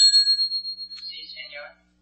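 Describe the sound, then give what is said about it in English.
A hotel desk bell gives a single bright, high ding that rings on with a pulsing shimmer for about a second, followed by a brief voice. “Ring the desk bell, please.”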